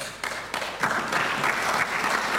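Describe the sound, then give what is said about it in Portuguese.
Applause from government and party benches in a parliament: dense clapping that starts slightly softer and swells into a steady roar, with no voices over it. “Para palmas das bancadas do Governo e também do PSD, do CDS e do PPM.”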